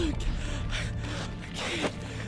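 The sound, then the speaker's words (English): A man takes panicked, gasping breaths: a few ragged, rough inhalations over a steady low rumble. “Easy, man. Easy. Breathe. Breathe. Just breathe.”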